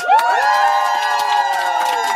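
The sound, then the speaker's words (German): Studio audience cheering at the FM4 Stand-Up stage in a live radio studio: loud, sustained high whoops and cheers from many voices, with a sharp rising whoop near the start. “Ja, wenn es Jubelschreie gibt hier live auf Radio FM Quattro, dann heißt das, dass Leute hier sitzen im Sendestudio und bei der FM4 Stand-Up-Bühne heute dabei sind.”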